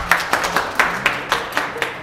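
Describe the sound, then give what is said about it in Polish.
Applause at an exhibition opening, heard as eight evenly spaced, crisp claps in a steady rhythm with no voices. “Jeszcze raz wielkie brawa.”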